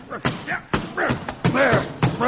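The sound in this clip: Blows strike an umbrella mistaken for a snake under a chair: a few sharp thuds and knocks land among excited, overlapping speech.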